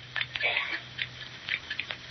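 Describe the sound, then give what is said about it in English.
Scissors cut a man's hair in a barber's chair, giving several quick, light metallic snips in an uneven rhythm. “Our barber's a little rushed today, so I'll shave your head myself. But Wharton... Sit still. I'll start with the scissors.”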